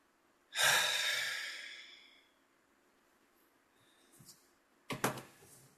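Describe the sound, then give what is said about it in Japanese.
A single deep breath taken during a stretching break: a long, airy exhale that starts loud and fades out over about one and a half seconds. After a quiet pause come two short, faint breathy puffs, with no talk. “はい、深呼吸して。”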